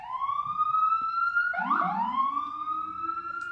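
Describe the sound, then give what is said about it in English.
A loud, continuous emergency siren wails throughout, holding a high steady tone before a second lower wail cuts in and overlaps it midway, both sliding gently in pitch. “I'm waiting for the sirens to stop.”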